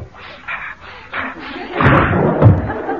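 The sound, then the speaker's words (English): A window is pushed open with a thudding, rattling knock and a brief scrape that rise out of a quieter murmur in the second half. “I really must open the window.”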